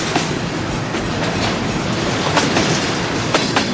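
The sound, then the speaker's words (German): A freight train passing by, a steady loud rumble of rolling wagons with a few sharp rhythmic clacks of wheels over rail joints. “Beim Lange fährt in seinem Bad gerade der Güterverkehr hier durch.”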